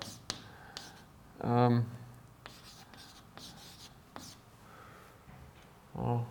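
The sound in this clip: Chalk or marker scrapes on a board during a programming lecture, with a few short scratchy strokes, quiet and intermittent, along with brief bursts of a voice.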